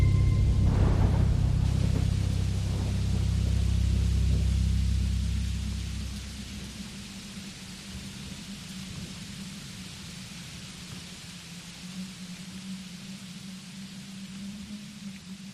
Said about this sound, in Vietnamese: Ở bên ngoài, trời bắt đầu đổ cơn mưa. Mưa lúc đầu chỉ lác đác, về sau to dần, rồi ầm ầm như trút nước từ đêm cho tới sáng.